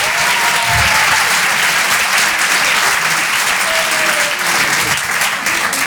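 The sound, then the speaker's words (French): Loud, unbroken clapping and cheering rise from a comedy club crowd for about six seconds, with a couple of short whistles cutting through the steady roar. “Du bruit, mesdames et messieurs.”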